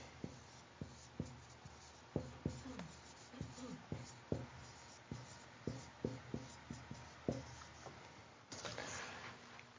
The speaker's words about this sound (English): I'm running out of board. I'm going to be on my knees if I'm writing down here any lower.